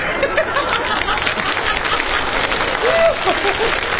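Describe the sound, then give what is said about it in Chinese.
Audience applause during a comic crosstalk routine after a riddle joke lands, a steady, moderately loud clapping wash that runs through the whole clip without a break. “您还给他鼓掌。”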